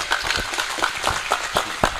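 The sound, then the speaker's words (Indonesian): Scattered hand clapping from an audience thanking a speaker, about ten sharp, irregularly spaced claps at moderate loudness with no voices over them. “Tepuk tangan kanggo Mbak Jihan.”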